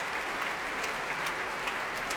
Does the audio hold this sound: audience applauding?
yes